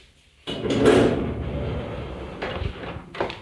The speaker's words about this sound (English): I'll kick the door open, so I don't have to touch it.